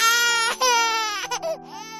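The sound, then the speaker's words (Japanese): A baby cries loudly in continuous, tonal wails, with a couple of short breaks where the crying catches before resuming. “ああ、よしよし。ねえ、どうしよう。全然泣き止まない。”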